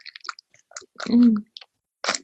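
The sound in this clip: Chewing on a pineapple-flavoured fruit biscuit pastry: a few short, soft crunches and mouth sounds, with one louder chewing burst in the middle and talk around them.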